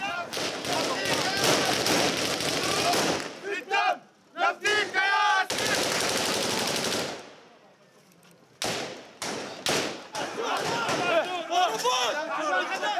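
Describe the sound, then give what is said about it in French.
Gunfire from armed militia fighters clashing with Palestinian Authority forces at the edge of Balata camp at night. Loud, dense bursts of rapid shots mix with a shouting crowd, broken by a short quiet gap before resuming. “Dès les premiers tirs, les forces de l'autorité palestinienne les repoussent à l'intérieur de Balata.”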